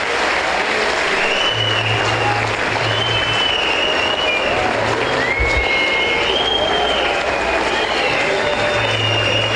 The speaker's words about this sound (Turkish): başta Okan hocamız olmak üzere, teknik ekibimize, futbolcu kardeşlerimize ve tüm çalışanlarımıza güçlü bir alkış göndermenizi rica ediyorum.